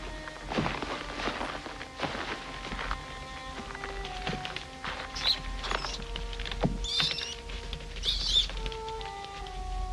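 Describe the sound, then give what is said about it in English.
Several rats scurry down stairs with a quick, light patter of many small feet, broken by a few sharp, high squeaks. “several rats scurrying down the stairs”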